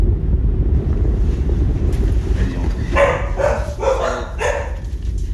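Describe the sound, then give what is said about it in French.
Rough, choppy sea during a whelk and crab fishing outing: a steady, loud wash of wind buffeting and churning waves, with brighter bursts of splashing water in the second half. “Ciel gris, plafond bas, mer agitée.”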